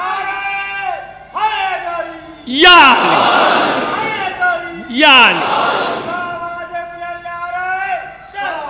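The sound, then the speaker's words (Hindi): A crowd at a Muslim religious gathering shouts a slogan invoking Ali in two loud collective bellows that swell and fade, with a single man's voice calling out before and between them. “जरा वो नारा लगा दीजिए तो मैं बात आगे बढ़ाऊं उसी नारे पे।”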